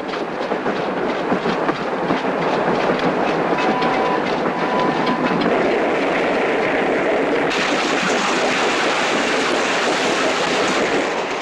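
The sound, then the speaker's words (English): Train carriage rolling along the rails at night through an icy landscape, a loud, steady rumble with rhythmic clickety-clack that continues unbroken from start to finish. “Outside, moonlight turns the icy landscape a pale blue. In the train car, Yuri jolts awake.”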